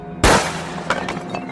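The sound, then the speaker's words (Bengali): A revolver-like weapon fires a single loud, sharp gunshot that decays over a fraction of a second, followed by a few fainter cracks. “এই দেখুন লোকটা সেই রিভলভারের মতো অস্ত্রটা দিয়ে পিছন দিকে গুলি চালালো”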